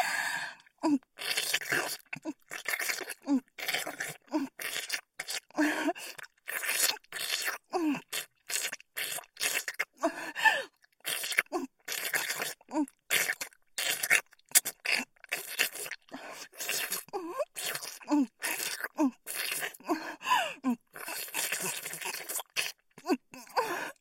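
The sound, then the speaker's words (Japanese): Wet licking sounds come in many quick, close, slurping bursts with brief pauses, mixed with soft breathy vocal sounds throughout. “この調子でもっと舐めまくってあげる。”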